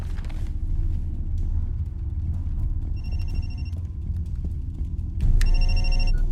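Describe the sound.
A telephone rings, two bursts of bright, trilling ringing over a steady low rumble, the second burst louder than the first.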